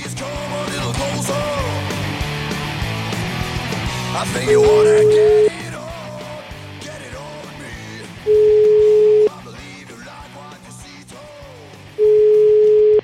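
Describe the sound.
Ringback tone on an outgoing phone call to a home: three steady, mid-pitched tones about a second long, spaced about four seconds apart, standing out loudly over quieter voices.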